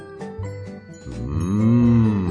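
A bull moos once in a long, deep, drawn-out call that swells and bends in pitch, following a few short, lighter sounds.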